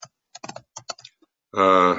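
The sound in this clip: Keyboard typing as a note is written down: a few scattered, irregular clicks of keys, then a voice starts up near the end.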